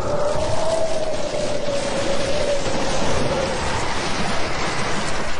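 Steady rain patters in a dense, continuous hiss, heard from inside a moving car, with a faint droning hum running through the first half.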